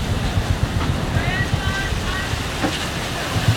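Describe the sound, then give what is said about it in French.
Rough sea with a phenomenal, heavy swell around a sailing boat, heard from the cockpit: a continuous roar of wind and rushing water, broken by low, irregular thumps. “En fait, on est dans une mer déchaînée. Même s'il y a du soleil, il y a une houle phénoménale.”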